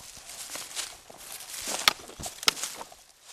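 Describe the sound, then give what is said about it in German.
Footsteps shuffle through ankle-deep autumn leaves on a walking trail in the Ilz valley, a steady crunching rustle with two sharper crackles partway through. “Jetzt im Herbst zeigt sich die wilde Schönheit des Ilztals in den herrlichsten Farben. Stundenlang kann der Wanderer im knöcheltiefen Herbstlaub spazieren gehen.”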